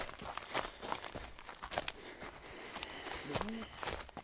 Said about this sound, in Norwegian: Jeg tror jeg skal springe foran her, så får jeg bedre recording. Nei, jeg springer nok foran her.